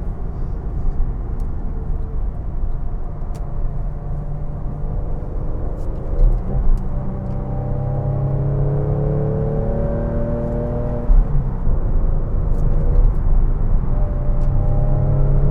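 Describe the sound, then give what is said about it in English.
A car engine revving to high RPM while driving, an engine said to lack low-end power. The droning note climbs repeatedly, drops back at gear changes, then climbs again, with steady road rumble underneath. “Yeah, much higher RPMs. I've really noticed the RPMs are very different. There's no bottom end power with this engine.”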